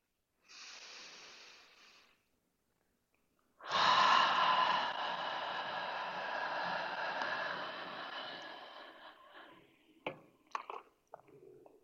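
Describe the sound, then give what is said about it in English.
Deep guided breathing paced at five counts: a soft, airy inhale through the nose, a pause, then a longer, louder, rushing exhale out through the mouth that fades away, followed by a few faint clicks. “So you're pulling in through the nose really deeply, 5 counts in. And then when you exhale on the 5 counts out through the mouth, just like let it all go so you can give yourself a little space to expand.”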